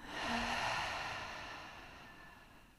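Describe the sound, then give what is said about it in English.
A deep breath during a guided breathing meditation, a soft airy inhale swelling early and then easing into a long, gradually fading exhale. “And then we'll take a big inhale. And a big exhale, letting it go.”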